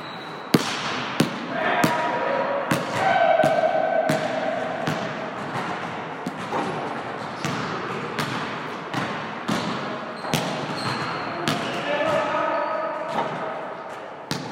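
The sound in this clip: A basketball bounces during a U.S. college basketball game, giving many sharp, evenly paced thumps over a steady, noisy background that stays at a constant level throughout.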